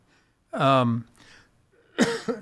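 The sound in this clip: A throat is cleared, irritated by dry air-conditioned air. A voiced, rasping throat-clearing sound is followed after a pause by a short, sharper cough-like burst.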